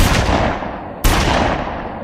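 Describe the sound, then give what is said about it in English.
Two loud, booming shots from a .357 Magnum revolver come about a second apart. Each is a sharp crack followed by a long, ringing decay. “this is the sound of a 357 Magnum.”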